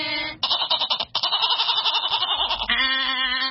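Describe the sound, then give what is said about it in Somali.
A goat bleats in loud, quavering, nasal cries. A few bleats run together before ending in a longer, steadier call. “waxaad ii sheegtaa ridu waxay u eedaa mu waa qalad beert ridu waxay u eedaa”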